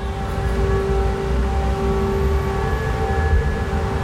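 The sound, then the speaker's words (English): Air raid siren wailing in Odessa, Ukraine, as a sustained, steady tone held at an even pitch over a constant low rumble, with no voices over it. “I'm talking to you from Odessa, and the sound you hear in the background is the sound of an air raid siren.”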